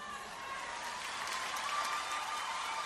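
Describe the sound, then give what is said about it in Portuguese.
Dense, even applause from a crowd at a live music show, greeting an accordion player, a steady wash of clapping that holds at an unchanging level throughout without breaks. “outra salva de palmas”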